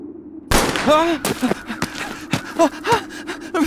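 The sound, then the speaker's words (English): A pistol shot cracks out abruptly, followed by strained gasping cries and a few more sharp impacts scattered through the rest of the moment. “Moriarty pointed the gun towards my face. Should have taken the money, Peeper. You live poor, you die poor.”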